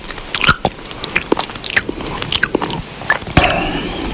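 Loud, close chewing and mouth noises while eating: wet smacks, crunches and sharp clicks in an uneven rhythm, with no talk.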